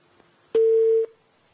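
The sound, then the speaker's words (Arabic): A single steady beep from a telephone line after a call drops, a mid-pitched busy tone lasting about half a second, heard alone against faint background hiss. “الاتصال انقطع للاسف.”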